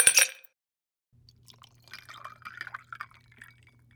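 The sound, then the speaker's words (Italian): A martini is poured into a glass at a home bar: a short burst of noise, then a faint, uneven trickle of liquid over a low steady hum. “sono andato al mobile bar, mi sono versato un martini”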